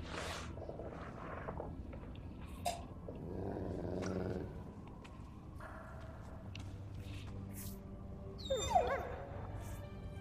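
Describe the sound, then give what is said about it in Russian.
Dogs growl and snarl with low rumbling, mixed with occasional yips and whimpers. The sounds stay faint throughout, with a sharper burst near the end. “Джек! Джек! Тихо, демон! Тихо!”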